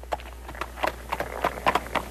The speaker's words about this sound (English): Wow. That's a cute little pony. Yeah. All right. Okay, make him stop right there? Okay. Good. All right, Patreon, give us some... We've got some pony in the music studio.